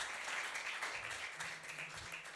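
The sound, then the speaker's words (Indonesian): Faint audience applause at a jazz event as a curator is called up: quiet, even clapping that continues throughout with a low murmur of voices beneath. “Tepuk tangan buat Mas Hari Murti.”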